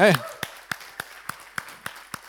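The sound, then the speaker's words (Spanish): A church audience clapping in a steady, even rhythm, about seven sharp claps in unison after a short spoken voice. “Vamos a darles un aplauso a ellos, Ahí está.”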